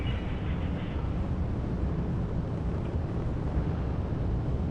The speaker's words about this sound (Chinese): 现在长征七号遥十一火箭已经点火起飞，托举天舟十号升空